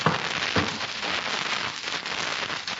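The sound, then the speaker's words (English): A log fire crackling with a steady, dense stream of fine pops and hiss, even and fairly quiet throughout, with no voices. “I'll put another log on the fire for you.”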